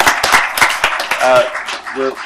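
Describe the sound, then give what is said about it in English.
Applause for visiting third-grade students at a council meeting: a short run of sharp claps at the start, then a voice speaking as the clapping fades. “We make an exception and applaud for students here.”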